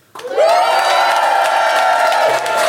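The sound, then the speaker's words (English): Crowd cheering for a contestant, starting after a brief hush and swelling fast into loud whoops and shouts that climb in pitch, then hold steady with scattered clapping. “So we can have cheers for Anya.”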